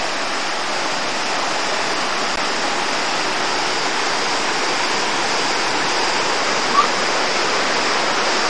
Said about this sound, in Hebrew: כל פעם מים באים ומים נעלמים, שואבים אותם לאנשהו, ושוב יש איזה מעיין ושוב יש זרימה.